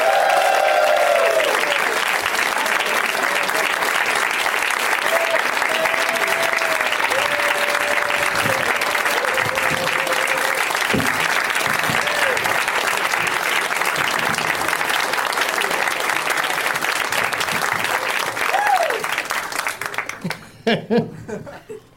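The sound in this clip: An audience applauds to welcome four guests: a long, dense run of clapping and cheering mixed with some laughter. It thins out and dies away in the last few seconds.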